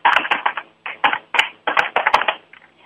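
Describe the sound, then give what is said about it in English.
Typing on a keyboard: many rapid, clacky keystrokes in quick bursts of several keys at a time with short pauses between, fairly loud, with no talking. “I'm going to type it into the chat room right quick.”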